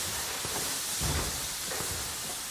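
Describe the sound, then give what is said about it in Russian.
A steam train moves in clouds of smoke, heard as a steady, fairly faint hiss of escaping steam over a low rumbling undertone, with no clear individual puffs. “Поезд едет в клубах дыма, над ним пролетает самолет-разведчик.”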